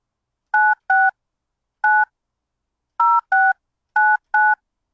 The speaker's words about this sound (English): I think I dialed that correctly. I have no idea. I get nervous when I dial in real time.